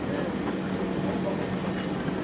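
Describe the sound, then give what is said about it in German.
Intercity train rolling into a station platform, heard as a steady, dense rumble of wheels and carriage noise that holds at an even loudness throughout, with no distinct squeals or horn. “IC 21, 56 nach Köln Hauptbahnhof. Abfahrt 12.14 Uhr. Vorsicht bei der Einfahrt. okay, da kommt er.”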